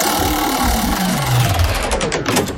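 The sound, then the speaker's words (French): A game show prize wheel spins with a rapid, steady mechanical clatter that holds at an even loudness for the whole stretch. “Allez, on tourne la roue.”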